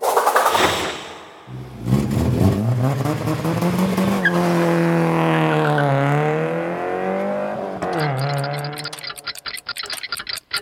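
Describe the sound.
A fast red car racing, its engine roaring with revving pitch that climbs and dips, tires squealing through the run, followed at the end by a rapid ticking.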